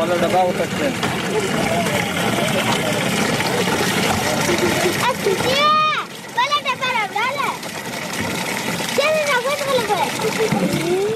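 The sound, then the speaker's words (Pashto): Water splashes and gushes steadily as children fill containers from an aid-built water tank in a Kandahar city district, with children's voices calling out over the splashing in the second half. “دلته ماشومان د اوبو له هغې ټانکۍ څخه ډبې ډکوي چې په سیمه کې د یوې مرستندوی موسسې لخوا جوړه شوې ده.”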